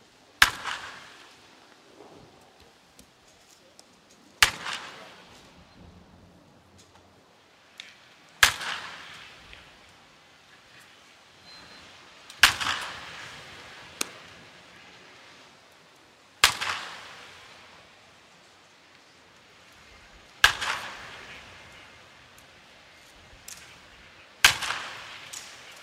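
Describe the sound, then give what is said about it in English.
Seven loud, sharp baseball bat hits, recorded from multiple mic positions, crack at an even pace about four seconds apart. Each strike rings out briefly, with a few fainter knocks between them. “And then back in post, I just chopped them up, lined up my transients, and ended up with a really cool sounding set of baseball bat hits that I use basically in all of the Rangers spots to this day. Those hits sound like this.”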